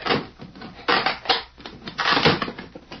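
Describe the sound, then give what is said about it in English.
Someone prying a box open, with rough crunching and creaking bursts that come in several strained pulses of varying loudness, separated by brief quieter gaps, with no voices. “Ah, here it is. I'll pry the box open.”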